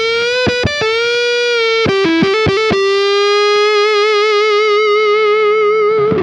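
Distorted electric guitar played on the bridge pickup with the tone knob rolled off, giving a darker sound. A few quick, choppy notes lead into a long, loud sustained note that wavers slightly as it rings out.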